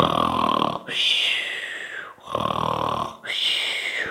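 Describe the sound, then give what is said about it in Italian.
A voice imitates a big mouse's loud snoring in a children's bedtime story: two cycles of a rumbling, gravelly snore, each followed by a high whistling exhale that slides downward in pitch. “gridò Topino, ma come russi forte!”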